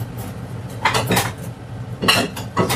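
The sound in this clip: Plate being set down on a table, heard as a few separate bursts of sharp ceramic clinks and knocks, moderately loud and free of talk.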